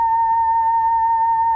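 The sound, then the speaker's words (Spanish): A steady electronic tone from a photodiode box that turns sunlight into sound during a solar eclipse: one constant, clear mid-pitched hum with a fainter overtone, holding even loudness throughout, heard alone. “Lo que acaban de escuchar es la luz del sol. Es muy sencillo, es simplemente una caja que consta de un fotodiodo que está en la parte superior y que transforma la iluminancia del sol en un sonido.”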